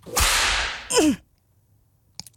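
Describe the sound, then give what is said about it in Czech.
A whip lash strikes a person: a loud rushing swish builds and ends in one sharp crack, followed by quiet and a faint brief click. “teď dostaneš ránu bičem”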